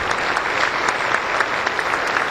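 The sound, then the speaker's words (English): An audience claps at a church service just before the sermon, a steady, even wash of applause with no talk over it. “Dangerous to clap before the sermon begins.”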